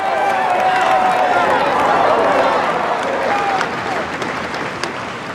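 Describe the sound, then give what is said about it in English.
Hundreds of party workers cheering and clapping as the Blairs walk into Downing Street, a loud sustained crowd roar and applause under a speaking voice, dropping in level over the last seconds. “In a break with tradition signalling a determination to do things differently, the Blairs walked into Downing Street to be cheered by hundreds of party workers.”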